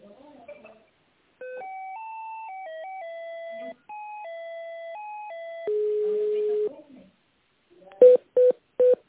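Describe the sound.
Electronic telephone tones during a call transfer: a stepped melody of sustained pitched tones, then one longer, lower steady tone, and finally three short, sharp beeps.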